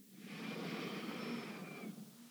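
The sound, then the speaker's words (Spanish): A deep inhalation taken during a guided centering breathing exercise: one steady, airy breath lasting about two seconds, soft and even before tapering off. “Y vamos a tomar nuestras tres respiraciones para centrarnos. Vamos a inhalar profundo.”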